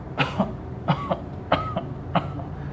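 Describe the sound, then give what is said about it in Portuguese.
A woman coughs with a wheeze: four spaced coughing bursts, each followed by a smaller one, with a thin whistling tone in two of them, fairly quiet and with no talk. “Ao ponto que o Afonso chama vocês, a mulher ela se afasta um pouco, tenta colocar a mão na boca e ela começa a tossir.”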